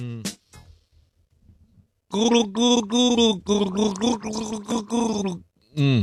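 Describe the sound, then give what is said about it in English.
A person gargles liquid while voicing a tune for a song-gargling game, making a wet, bubbling hum in one long loud stretch of pulsing phrases, with a few brief sounds before it and another short burst at the end. “Let me just practice gargle.”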